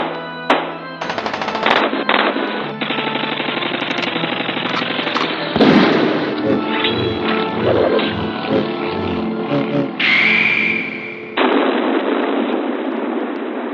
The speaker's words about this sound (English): Now give me that gun. He's dead. You shot him in the heart.